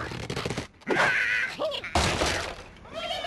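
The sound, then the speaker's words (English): Sounds from an iPhone video game in which cartoon birds are launched at pigs and obstacles: squawking bird cries mixed with crashing, breaking and thudding impacts in a short, busy burst. “What you're hearing is the sound from the hit iPhone game Angry Birds. Picture adorable cartoon birds being shot at pigs and other obstacles.”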